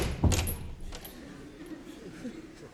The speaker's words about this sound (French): C'est une petite porte basse au fond qui s'est refermée.